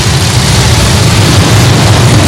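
Engine noise from a whole bunch of cars coming through, a steady, dense low rumble that stays loud throughout with no distinct individual passes standing out.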